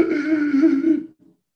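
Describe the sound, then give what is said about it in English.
A very deep, voiced breath caught by a sensitive, expensive microphone: one long groan-like exhale lasting about a second, steady and fairly loud, ending with a brief faint tail. “Are you okay, Mr. President? That was a very deep, deep breath.”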